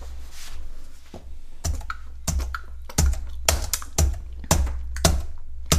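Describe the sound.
Typing on a computer keyboard: a steady run of many sharp key clicks and thumps, fairly loud and irregular in spacing, with no voices.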